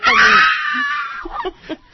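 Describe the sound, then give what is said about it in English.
A voice imitating shrill screaming and wailing: a loud, high-pitched cry that trails off into a few short whimpering bursts. “Oh, they started screaming like little girls.”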